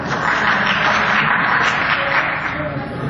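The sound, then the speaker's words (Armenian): Members of parliament applaud a speech in a legislative chamber, with majority and opposition joining in. The clapping is a steady, fairly loud patter mixed with an indistinct murmur of voices, easing slightly near the end. “Տեսնում եք, պարոն Սահակյան, Ձեր ելույթին ծափարում է և մեծամասնությունը, և ընդդիմությունը։”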